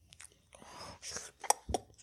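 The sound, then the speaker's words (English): A voice imitates a wet chewing and squishing sound with a run of faint mouth smacks and clicks, a few sharper pops near the end. “I'm doing a bad impression. I need something to actually chew on. But she's hearing like a chewing sound, but it also sounds like maybe breathing and squishing.”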